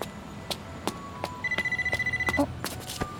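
Telephone ringing with an incoming call from a withheld number: a rapid electronic trill of many quick pulses lasting about a second, loud and alone, set among scattered sharp clicks and taps before and after.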